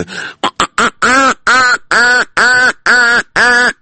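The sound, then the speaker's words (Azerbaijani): A voice imitates a duck quacking: a few quick, short nasal honks, then a steady run of longer, buzzy, evenly spaced quacks at a moderate pitch. “Məsəl üçün, ördək səsi.”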